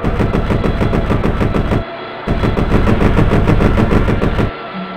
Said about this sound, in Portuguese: As baterias antiaéreas tentavam em vão repelir as aeronaves americanas.